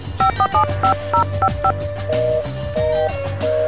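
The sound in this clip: Touch-tone beeps come from a mobile phone as a number is dialed for a call after a recharge. A quick run of short, evenly pitched key tones is followed by a few longer, steady tones.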